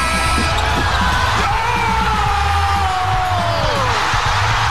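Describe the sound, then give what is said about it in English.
A basketball bounces a few times on the rim before dropping through the net on a Game 7 winning shot between the Raptors and 76ers, nearly buried under a loud, continuous crowd roar with yells and whoops. “You could hear the ball bounce there 4 times on the rim before falling through the net.”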